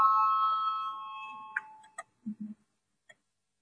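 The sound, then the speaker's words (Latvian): A bell rung to call a parliamentary vote gives one sustained ringing tone that slowly fades. A few faint clicks and knocks follow. “Lūdzu, zvanu”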